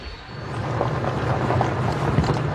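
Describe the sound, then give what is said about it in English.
Steady low engine rumble of a military vehicle carrying government forces through the valleys of Taiz toward a front line, mixed with rushing wind noise, holding at a constant level throughout. “We're driving through the valleys of Taiz with the Yemeni forces, heading towards the front line.”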